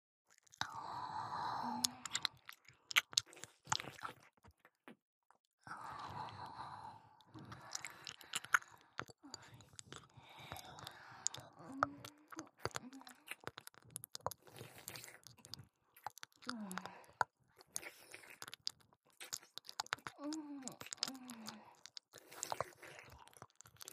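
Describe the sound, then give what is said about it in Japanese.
Wet licking and mouth sounds on an ear, close and intimate in a soft, whispery setting: many irregular smacks, slurps and squishy clicks at low volume, with short pauses between bursts. “私は耳をペロペロしましょうかね”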